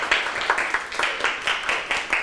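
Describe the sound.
Students in a classroom clap for their own group, a steady, rhythmic run of many sharp claps at a brisk, regular pace.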